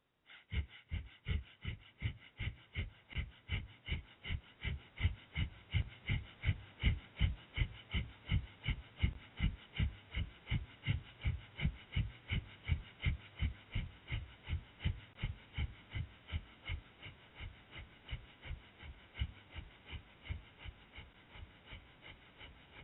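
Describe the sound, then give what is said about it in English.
Rapid, forceful rhythmic breathing of a breath of fire yoga exercise. Many short, sharp exhalations come at a steady pace of about two per second, continuing evenly throughout without talk. “And continue with breath of fire for 1 minute.”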